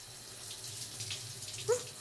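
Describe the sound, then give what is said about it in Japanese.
Shower water runs over hair during a hair wash, a steady, even hiss of spraying water that continues throughout with no talking. “まずは髪を洗いますね。シャワーかけますね。”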